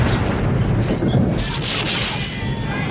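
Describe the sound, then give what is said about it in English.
An engine explodes in flames with a loud, deep, roaring blast that is dense and sustained rather than a single short bang. “The engine explodes in flames as the monster sabotages it further.”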